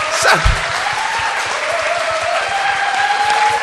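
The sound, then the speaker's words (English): An audience at a discussion gathering gives a round of applause. The clapping is loud and sustained, with a steady crackle of many hands lasting the whole time. “Oh yeah, give him a round of applause.”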